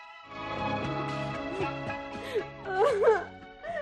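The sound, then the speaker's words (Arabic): A woman cries in a drama scene, her voice wavering and sobbing in uneven moaning pulses that swell into a louder, quivering wail near the end. “بطلي عياط. غصب عني يا ماما.”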